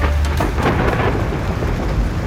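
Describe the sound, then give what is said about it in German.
A thunderstorm over Lower Saxony: heavy rain pours in a dense, loud, continuous wash, with deep rolling thunder rumbling low underneath. No voices are heard. “das ein oder andere Unwetter über Niedersachsen weggezogen ist und richtig mit Sturm und...”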